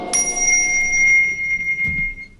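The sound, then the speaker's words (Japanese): A temple bell rung by a Buddhist monk gives one bright, high, shimmering tone that holds and slowly fades, with faint low rustling underneath. “和尚様、響きましたね。鐘が響きました。”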